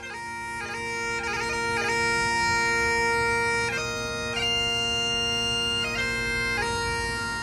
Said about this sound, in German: Das, was du hier gerade hörst, ist ein Original-Dudelsackspieler in Edinburgh.